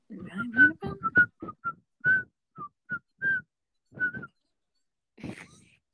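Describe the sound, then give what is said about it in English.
A person whistles a tune in short, separate clear notes that hop between pitches at a moderate pace, ending on a breathier, softer note. “good job whistling that. That sounded really good.”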